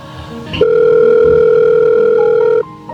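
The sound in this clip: A telephone ringback tone plays during an outgoing call: a single loud, steady beep lasting about two seconds, after a short click, then cut off abruptly into faint background noise.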